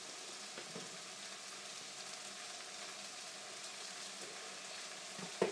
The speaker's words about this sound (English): There it is, it's simmering away. It's hotting up a little bit more.